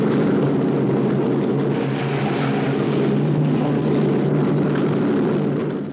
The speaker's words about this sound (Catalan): En Víctor Laszlo va en aquest avió. Per què no ho impedeix?